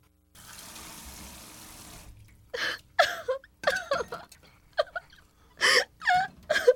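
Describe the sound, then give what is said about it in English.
A woman crying and sobbing, a few halting, uneven wails and catching breaths that break off between bursts, following a soft hiss at the start. “Don't cry, Mom. I remember saying that. Don't cry.”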